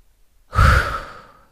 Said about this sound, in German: atme immer tief durch.